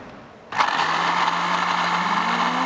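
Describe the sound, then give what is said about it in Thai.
A blender with its lid closed whirs on abruptly after half a second, blending boiled beans with yogurt. Its loud, steady motor roar holds to the end, and a humming tone creeps slightly higher near the close. “คราวนี้ปิดฝาแล้วปั่นเลยครับ”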